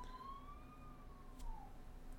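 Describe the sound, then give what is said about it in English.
A police car siren wails faintly as a single long tone that bends gently and drops lower near the end, with steady background noise and no speech. “It sounded like it came from like a mile away. It sounded like him. I bet you there's a police car outside or something.”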